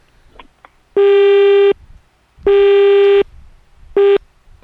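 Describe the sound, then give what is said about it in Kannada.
A telephone busy tone after a dropped call on a radio phone-in quiz: three loud, steady beeps at one pitch with brief silences between them, the last one cut short. “ಬಹುಶಃ ಕರೆ ಕಟ್ಟಾಗಿದೆ.”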